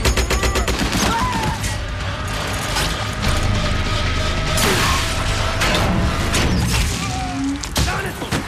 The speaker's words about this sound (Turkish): İskaladı. Makineliyle vur.